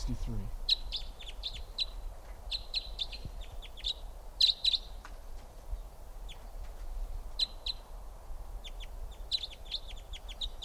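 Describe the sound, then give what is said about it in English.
Birds chirping and calling while flying around a mist net, two already caught: repeated short high-pitched chirps in irregular bursts over a low background rumble. “Birds are really flying around. I got two in the net here.”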